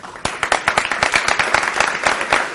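An audience bursts into loud, sustained applause, with many overlapping hand claps forming a steady crackling wash through the whole clip.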